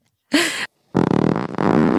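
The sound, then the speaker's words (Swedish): Farting from an uncle at the dinner table: a short buzzing blast, a pause, then a longer, rippling, sputtering one, both loud and alone with no talk. “Men alltså, det är äckligt att prutta. Varför pruttar du farbror?”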